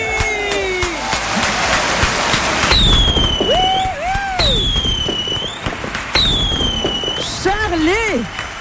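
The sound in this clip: Fireworks for a 50th birthday: whistling rockets with curving, sweeping tones and dense crackling bursts, loud throughout, with people talking underneath.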